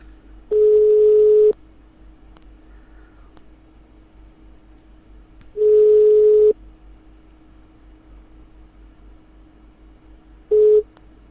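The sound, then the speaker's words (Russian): Telephone ringback tone on a call that goes unanswered: three steady mid-pitched beeps, each about a second long and separated by long gaps, the last one clipped short, over a faint low hum. “Что-то губошлеп не берет трубку, бля.”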